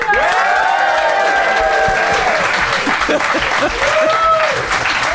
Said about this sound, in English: I would like you to applaud now.